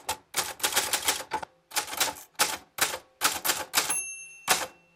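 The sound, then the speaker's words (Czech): An old typewriter clatters under steady typing: quick, sharp key strikes come in bursts separated by short pauses. Near the end a clear bell rings, and a few more clacks follow. “No, zkus, jak když bys normálně psal, tak zkus něco psát. No. Tak no. Opisuj třeba tu”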